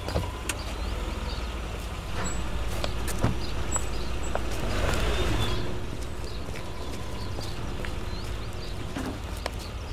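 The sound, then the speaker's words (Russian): A car drives into a yard, its faint low engine rumble steady throughout and swelling briefly midway, with a few scattered sharp clicks. “Машина выезжает во двор, и Света”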